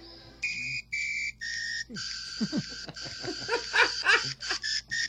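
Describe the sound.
A national anthem is whistled as a melody of clear, sustained high notes with short gaps between phrases. Fainter, lower chirping sounds run beneath the later notes.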